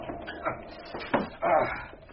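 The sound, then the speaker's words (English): Bolts on a front door being locked: several faint, separate clunks and slides spaced out irregularly, with quiet gaps between them and a slightly louder scrape in the middle. “I'll just lock up Dr. Bunty. You seem to have an inordinate number of bolts on your front door.”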